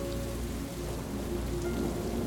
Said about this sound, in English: In the pouring rain,